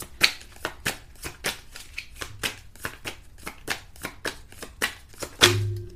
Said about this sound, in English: So, yeah, let me take three cards right quick.